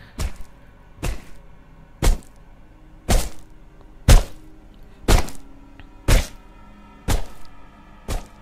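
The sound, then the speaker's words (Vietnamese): A stone smashing down on a dog's head: nine dull, heavy thuds in an even rhythm, about one second apart, each standing out clearly over near silence. “Cục đá một lần nữa đập vào đầu con chó, vang lên những tiếng ghê rợn.”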